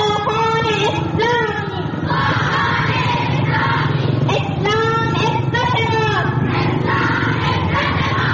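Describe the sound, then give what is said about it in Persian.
Dozens of women chant in unison at a pro-Taliban rally in Zaranj, Nimruz, their voices rising in loud, repeated shouted phrases over a continuous crowd roar. “این صدای ده ها زن در شهر زرنج مرکز ولایت نیمروز به حمایت از طالبان است که هفته گذشته را پیمایی داشتند.”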